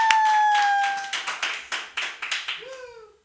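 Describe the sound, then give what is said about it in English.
Scattered clapping welcomes a comedian to a call-in set at a comedy show: after a held electronic tone, a handful of separate sharp claps follow in an uneven run, fairly faint and alone. “Everybody put your hands together right now for Tori Ward.”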